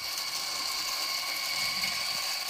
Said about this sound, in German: Mach das auf die Mühle und ja, dann gucken wir hier, dass wir auch 18 ja haben.